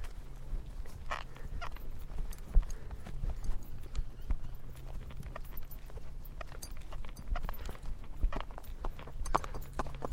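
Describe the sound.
Horse hooves walk slowly up a slight gradient on a road, giving a steady, continuous clip-clop with many even strikes at a relaxed pace.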